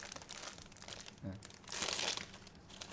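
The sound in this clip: A plastic package is crinkled and torn open. Soft rustling builds to one louder, brief tearing burst, with a short voice heard nearby.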